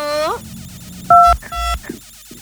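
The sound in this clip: Telephone dialing tones while connecting a call: two loud, steady dual-pitched beeps, each lasting about a quarter second, following a brief voice at the start.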